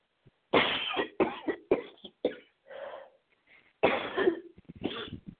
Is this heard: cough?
yes

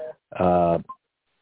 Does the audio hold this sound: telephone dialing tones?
yes

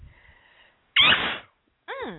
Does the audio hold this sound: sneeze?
yes

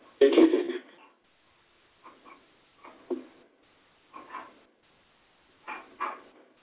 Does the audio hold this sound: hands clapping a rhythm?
no

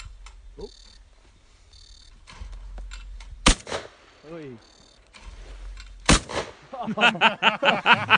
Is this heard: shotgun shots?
yes

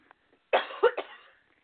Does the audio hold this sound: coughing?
yes

